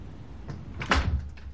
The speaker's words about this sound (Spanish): se marcha cerrando la puerta